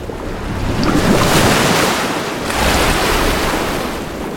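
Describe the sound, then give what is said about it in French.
Lake water rippling and lapping under steady wind, a broad hissing wash that swells and eases in two gentle surges. “regardez l'eau du lac au loin, elle frémit.”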